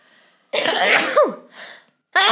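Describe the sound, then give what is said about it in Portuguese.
A single loud, abrupt sneeze, a burst of breathy noise ending in a short falling voiced sound, followed by a brief quieter vocal sound and the start of a voice. “Ai, tenho de espirrar, pera.”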